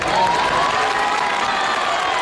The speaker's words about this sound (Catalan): Paraules davant de més d'un centenar de veïns que el van anar a ovacionar.